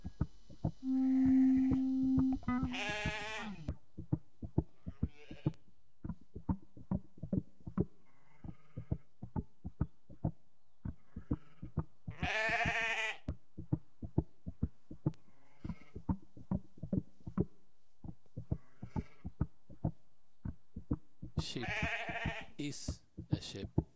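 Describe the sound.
Sheep bleating, a few wavering, nasal calls spaced well apart, over a steady, regular ticking pulse that runs throughout at low volume.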